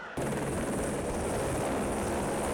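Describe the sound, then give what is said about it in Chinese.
Rescue helicopter flying over a flood-hit area to move trapped residents: a loud, steady roar of rotor and engine noise starts abruptly at the beginning and holds unbroken to the end, with no voices. “湖南省应急管理厅调派应急救援直升机转移受困群众。”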